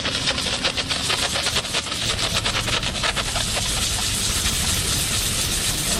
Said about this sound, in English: And what we do is turn on the steam button. we place the spoon right on the gum and inject the chemical and motion.